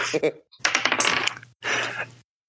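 Dice roll during a tabletop role-playing game, with a few bursts of rapid clattering clicks. The longest is a busy rattle of about a second, and brief silences separate the bursts.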